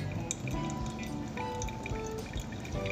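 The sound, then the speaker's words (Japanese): Hot water pours in a thick stream from a kettle onto coffee grounds for shop iced coffee: a quiet, continuous watery splash with small drips over it, unbroken throughout. “湯柱はもうぶっとくケトルから出しちゃって大丈夫ですで”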